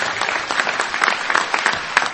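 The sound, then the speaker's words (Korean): Standing ovation from hundreds of listeners after a speech, a dense, even wash of many hands clapping at once, steady throughout. “연설이 끝나자 수백 명의 청중이 기립박수를 전합니다.”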